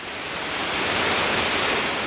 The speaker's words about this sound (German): Das unheimliche Rauschen des wilden Bergwassers, der spärlich von oben eindringende Lichtschimmer, alles vereinte sich, die Sinne zu betäuben.